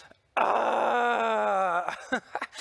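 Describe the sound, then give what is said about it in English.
An audience lets out a collective groan together: one loud, sustained moaning tone starts suddenly, holds for about a second and a half with its pitch sagging slightly, then breaks into a few short, ragged vocal bursts. “let's let out this collective groan together on the count of three”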